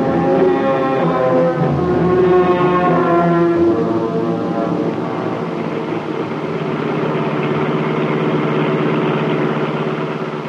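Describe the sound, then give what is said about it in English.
A car engine hums steadily while driving around, a sustained low droning tone whose pitch sags slightly in the first few seconds, then holds even and unbroken. “Drive around, Cato. Drive any place.”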